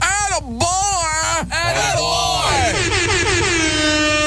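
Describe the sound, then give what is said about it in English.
A radio host blows air horns in loud, sustained blasts that waver and slide in pitch. They run without a break and overlap one another. “Let me grab my air horns right over here.”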